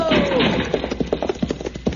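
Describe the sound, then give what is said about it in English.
Horse hooves clip-clop as a rider mounts and rides off, with a muffled shuffle at first and then a quick, even series of loud hoofbeats. “Can you get on your horse, Pancho?”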